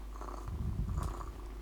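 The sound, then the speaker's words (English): AI-generated cat purring from adjustable software, a steady, low rumbling purr that runs unbroken throughout with no voices. “I'm going to turn on the artificial intelligence cat.”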